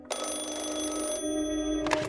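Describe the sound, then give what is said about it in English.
A telephone bell rings at 2 a.m., bright and continuous, filling almost the whole stretch. A short change in the ring partway through is followed by another loud burst near the end. “A few nights later, the phone rang again at 2 a.m.,”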